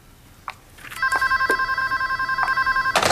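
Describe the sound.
A telephone rings with an electronic, rapidly warbling tone that holds for about two seconds, loud and steady, after a few faint short knocks and before a brief noisy clatter.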